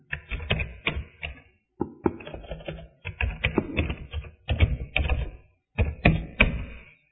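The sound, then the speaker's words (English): Writing being done by hand, heard as bursts of quick, crisp tapping and scratching strokes broken by short pauses, with no talk. “I'll write this down.”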